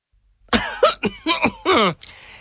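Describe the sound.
Loud throat clearing comes in several rough, voiced bursts in quick succession, alone without talking.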